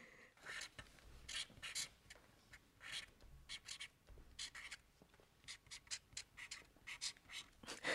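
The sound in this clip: A pen scratching across paper as someone writes a wish for their dream five years ahead, with many quick, faint strokes in an irregular rhythm and no talk.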